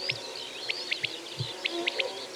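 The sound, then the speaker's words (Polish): Quails calling, several birds giving short, high, whistled notes in quick little clusters, faint over a soft background hiss. “ciągle będą dawać o sobie znać przepiórki i ich tu jest kilka ze swoim charakterystycznym pit-pilit.”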